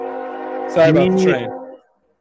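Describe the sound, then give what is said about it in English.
A passing train sounds its horn in a loud, steady, harmonic blast. A voice briefly talks over the middle before the horn cuts off, leaving silence. “Sorry about the train. That's pretty loud. It is loud.”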